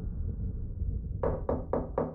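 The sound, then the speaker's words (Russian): Four timid, evenly spaced knocks on a door, each a short hollow rap, over a steady low background hiss. “В дверь робко постучали.”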